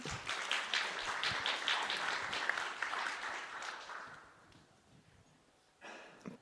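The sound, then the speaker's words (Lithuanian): An audience applauds panel guests being introduced, among them a researcher, a writer and a theatre critic. Dense clapping continues for about four seconds, then dies away, leaving a few faint scattered sounds. “Tai galite pasveikinti, paplot.”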